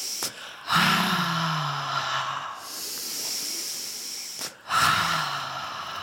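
Deep exhalations during a guided breathing exercise: two long, breathy, hissing out-breaths with a faint low voiced tone, each swelling and then trailing off, separated by a quieter pause.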